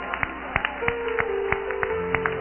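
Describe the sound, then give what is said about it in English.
Hands clapping in a steady beat during a worship service. Many sharp, evenly spaced claps sound over sustained musical tones. “Let's all clap our hands. Come on, let's give them a”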